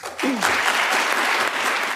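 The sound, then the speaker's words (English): Applause breaking out in a barbershop, starting abruptly after a brief quiet moment, then continuing as steady, dense clapping to the end. “I mean, you can see why the whole barbershop burst into applause.”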